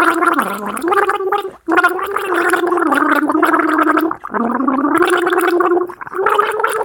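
A person gargles a theme tune, the bubbling throat sound loud and continuous as the pitch steps up and down through the melody, broken by a few short pauses for breath.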